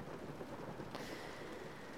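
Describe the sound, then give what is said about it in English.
Heavy rain pours down during a storm, a dense, continuous roaring hiss of drops that holds steady throughout, with no voices. “Oh, geez, I didn't know there was gonna be a storm tonight. Yeah, looks like it's really coming down hard.”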